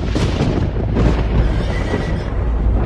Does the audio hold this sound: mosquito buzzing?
no